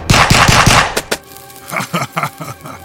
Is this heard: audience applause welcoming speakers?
no